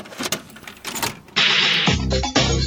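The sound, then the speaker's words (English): A VHS tape is pushed into a VCR: plastic clatter and clicks, then the deck's loading mechanism whirs loudly and steadily, settling into a lower mechanical hum with a clunk near the end. “This week we're talking about Camp Nowhere. Let's pop in the tape.”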